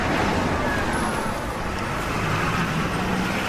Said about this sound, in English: A busy street in central London, teeming with traffic.